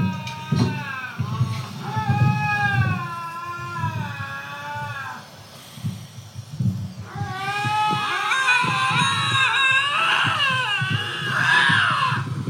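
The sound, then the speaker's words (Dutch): Cats yowling and screeching at each other in a fight: long, wavering, strongly tonal wails like crying babies at first, then a louder, higher, overlapping burst of screeches from more than one animal. “Ik vind dat katten klinken heel erg als krijzende baby's.”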